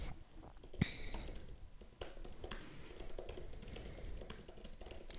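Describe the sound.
Typing out a quick reply on a computer keyboard: a steady, busy patter of many faint key clicks, with no voices.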